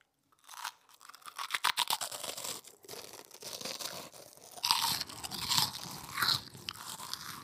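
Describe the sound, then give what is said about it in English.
Someone chews crunchy pork rinds, producing many crisp, uneven crunches and crackles that build in loudness, with sharper bites standing out toward the end. “So I don't know if you can tell, but chewing on some delicious pork rinds here.”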